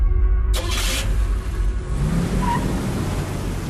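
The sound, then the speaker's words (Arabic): A car accelerates hard, driven fast as if on a race track, its loud engine roar surging in with a bright burst of noise near the start and staying strong and steady to the end. “أوف أوف، الله يهديك، تسوق وكأنك في حلبة سباق.”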